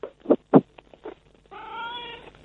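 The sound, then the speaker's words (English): A pet cat meows in the background: a few short, separate meows, then a longer, steady, drawn-out call with a clear tonal quality. “What's that in the background? That's my cat, Buster.”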